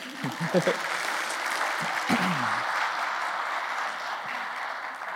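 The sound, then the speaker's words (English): Audience applause as three directors, covering preschool, kids and students, are welcomed to the stage. Steady, dense clapping continues throughout, with a voice briefly heard over it. “So guys, welcome to the stage. You guys give them a hand.”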